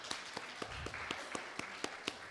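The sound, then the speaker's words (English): Church audience clapping hands in praise, a steady rhythmic beat of sharp claps at roughly four per second, faint and even, with a low murmur of voices underneath. “Let's give another hand clap of praise.”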